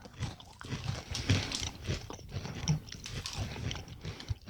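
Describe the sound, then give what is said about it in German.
Crunchy biting and chewing of very hard, deep-fried rice cracker chunks seasoned with garlic, sweet and spicy flavours, heard as many irregular crisp crunches at a low level, continuous and without talk. “Das sind wahrscheinlich so Reiswaffelbrocken, die dann erst nochmal frittiert werden. Die sind ja auch sehr, sehr hart und fest, also sehr knusprig.”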